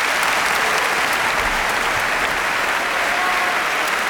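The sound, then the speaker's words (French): A concert audience gives a standing ovation in a concert hall: a dense, unbroken roar of clapping from many hands, loud and steady throughout, with no voices above it. “Voilà le Biennau et Anthony Hermus salué par le public qui se lève. Le public de la Saint-Henri-le-Bœuf se lève pour saluer tout le soutien,”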